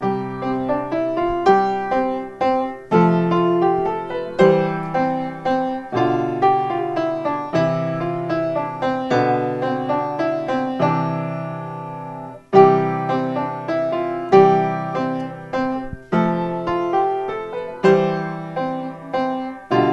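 A child plays a song on the piano at a piano school: clear, ringing notes and chords in a steady, flowing rhythm, with a brief pause partway through before the melody continues. No talking is heard.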